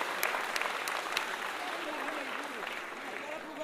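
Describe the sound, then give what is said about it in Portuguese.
Audience applause at a samba performance, a dense, even wash of many hands clapping throughout, fairly faint, with some crowd voices mixed underneath. “Uma salva de palmas para o Brasil!”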